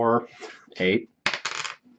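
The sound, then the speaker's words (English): Four-sided dice clatter onto a table during a tabletop role-playing game, giving a few bright, hard rattling bursts with short pauses between them. “Just roll the 44 and cut the number in. Yeah, roll the 44 and cut it in half. Four. Oh, roll it all four times.”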